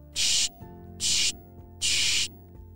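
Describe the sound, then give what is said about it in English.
Three sharp hissing bursts from a spray bottle of Bubbleberry soap, evenly spaced and each lasting under half a second, loud against a quiet background. “He sprayed a few sprays of the Bubbleberry soap,”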